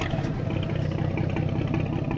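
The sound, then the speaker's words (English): Engine of a small lobster boat, an open stand-up center console at a dock, running with a steady mid-pitched rumble and a slight rhythmic throb. The level stays even, with no other sounds over it. “The engine fires right up, and Kerlick”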